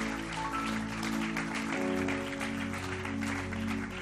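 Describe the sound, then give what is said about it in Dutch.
Applause in a church service, a quiet, continuous wash of clapping from the audience that holds steady over sustained background music. “Come, why don't we give all these guys a hand right now? Laten we ze allemaal een applaus geven.”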